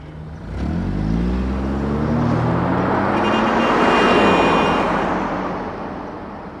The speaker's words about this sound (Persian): ماشین دو با سرعت از کنار عباس رد میشود.